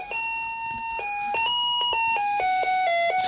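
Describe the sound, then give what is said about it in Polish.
An electronic doorbell chime plays a bright melody of many short, clear tonal notes that step up and down in pitch at a steady pace. It sounds alone, with no voices. “Potem mamy taki dzwonek.”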